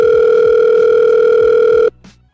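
Telephone dial tone while a call is placed: a steady, loud, unbroken tone that holds for about two seconds, then cuts off, leaving faint low noise.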